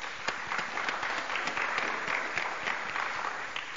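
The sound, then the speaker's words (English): An audience applauds at a conference session: a thick, even wash of many hands clapping that holds a steady level for the whole stretch, with no voices standing out. “So a round of applause for all the speakers.”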